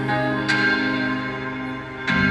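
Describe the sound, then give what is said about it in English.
A deep, resonant bell rings with a rich, sustained hum, struck twice more so that fresh bright attacks swell over the lingering tone. “The ringing of the division bell had begun.”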